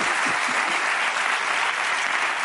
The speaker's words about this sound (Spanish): Un aplauso para Alejandro y Georgina